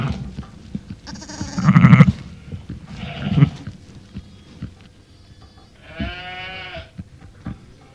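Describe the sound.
Sheep bleating, a ewe with her newborn lamb: three separate, moderately loud bleats with wavering tonal harmonics. The last is longer and steadier than the first two, with quiet gaps between the calls.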